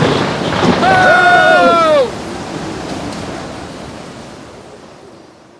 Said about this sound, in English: What's that noise? It's the storm